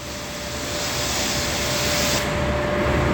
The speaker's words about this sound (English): So this is the high pressure washer? Yes, this is our detailed general cleaning or DGC. This is inside and out, top to bottom, front to back, right?